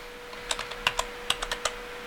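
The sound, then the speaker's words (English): Typing on a computer keyboard as a search term is entered on a website: a quick, uneven series of light key clicks, about a dozen strokes, with no talk. “I typed in the term devil in my website and it gave me something.”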